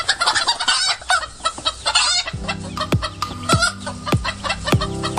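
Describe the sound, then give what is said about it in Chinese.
Three Gorges black chickens, black-feathered with red combs, cluck while ranging free on a mountainside in Hubei, giving many busy, overlapping clucks and sharper calls in a continuous, lively chatter. “他们不是关在笼子里的速成者，而是满山跑的慢行者，一身黑羽红冠，活成了山的一部分。它叫三峡黑鸡，”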